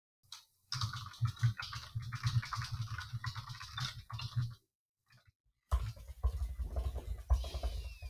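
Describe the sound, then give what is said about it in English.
Computer keyboard typing picked up over an online call: a rapid, continuous clatter of keystrokes that stops briefly partway through, then resumes just as busily. “I can hear you typing.”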